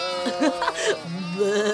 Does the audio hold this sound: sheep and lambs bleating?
yes